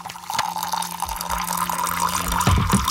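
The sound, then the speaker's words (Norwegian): Tea is poured into a cup and then stirred, giving a steady liquid pour with soft clinks and swirling sounds. “Det noen som heller seg opp litt te, ja. Rører litt.”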